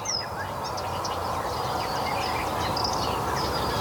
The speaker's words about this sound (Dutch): En daar hoor je ook direct vogels die je niet per se in een moeras verwacht. De koolmees.